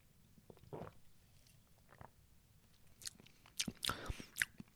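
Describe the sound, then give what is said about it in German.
A sip of San Pellegrino Naturelli lemon-flavoured lemonade: soft wet mouth and swallowing noises, quiet at first and then a few louder gulps toward the end, with no talk. “Ja, wie schmeckt uns denn nun diese San Pellegrino Naturelli Limonata mit Zitronengeschmack? Ich nehme nochmal einen Schluck.”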